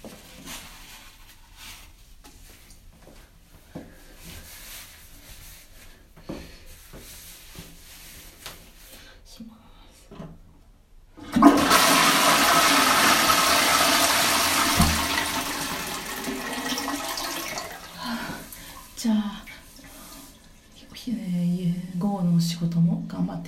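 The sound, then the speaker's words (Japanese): A toilet flushes with a loud, steady rush of water that runs for several seconds and then tapers off. It follows a quieter stretch of faint scattered sounds. “じゃあ、ちょっと流しますね。”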